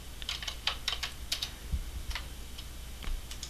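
Light clicks and taps on a computer keyboard and mouse while dialing a call, an irregular run of many quick, faint keystrokes with short pauses and no voices.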